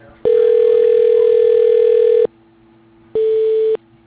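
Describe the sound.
Telephone tones sound as a call is transferred to voicemail. One steady electronic beep lasts about two seconds, then after a short pause a second, shorter beep follows, clean and loud with no voices.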